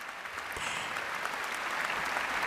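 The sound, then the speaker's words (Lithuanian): Audience applause after a radio philharmonic orchestra's concert: a dense, continuous patter of many hands clapping, even and sustained throughout. “Pasiklausykim puikių plojimų garsių.”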